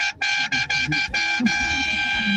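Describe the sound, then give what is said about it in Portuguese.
A vehicle horn honks in a rapid series of short, loud blasts followed by one long sustained toot, with voices talking and shouting underneath. “Buzina aí, filho, buzina aí, vai.”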